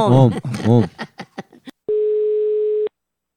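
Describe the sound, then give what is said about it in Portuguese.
Outgoing telephone call ringing tone: one steady, mid-pitched tone lasting about a second, heard alone after a stretch of speech. “Agora eu vou ligar pra Lenilda”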